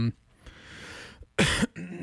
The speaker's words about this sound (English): Sorry, I'm gonna work on coughing off mic.